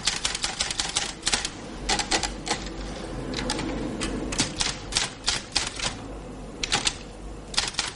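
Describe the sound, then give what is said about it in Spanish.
An official types a report on a typewriter: many rapid, sharp keystrokes clatter in irregular bursts separated by brief pauses, steady and fairly quiet throughout. “Cambia de línea varias veces y continúa escribiendo.”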